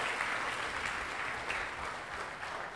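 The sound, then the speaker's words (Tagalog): A church audience claps in praise of the Lord, a continuous wash of many hands beating at an even, moderate loudness from start to end. “Pwede mong palakpakan natin ng Panginoon, mga kapatid.”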